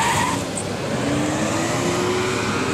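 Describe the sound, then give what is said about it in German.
Cars driving out of a parking lot on a Friday afternoon, a steady wash of engine and tire noise with a faint, thin whine running through it. “Und wir schalten da auch mal auf einen Parkplatz. Wie das so klingt am Freitag um kurz nach drei.”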